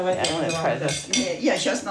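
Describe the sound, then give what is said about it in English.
Bowl and utensil clinks and scrapes come from syrniki batter of egg yolk, rice and wheat flour, vanilla sugar and orange zest being mixed by hand in a kitchen, with a voice talking over the light, irregular knocks. “rice flour, wheat flour, vanilla sugar, skin of orange. And he mixes by hand.”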